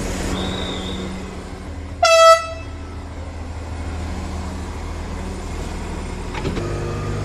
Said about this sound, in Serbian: Lokomotiva počinje da vuče ovaj lepi voz, skroz starinski. Uski je kolosek zaista i evo izlazimo iz stanice Mokra Gora.